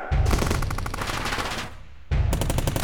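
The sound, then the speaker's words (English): Loud rapid gunfire crackles in two dense bursts of automatic shots, separated by a short lull. “Open fire!”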